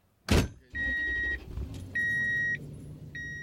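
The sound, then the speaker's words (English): A car on an outing beyond the fences into Arizona pronghorn country: a heavy thump, then a low, steady engine rumble with three bursts of sustained high electronic chiming, and no talk. “We drive beyond the fences to where we hope to see antelope.”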